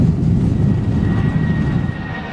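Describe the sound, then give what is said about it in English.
An airplane rumbles down the runway for takeoff with a loud, steady, low engine roar and a faint high tone above it. “we began our taxi out to the runway. Yeah, preparation for departure. I gazed out the window as we rumbled down the runway.”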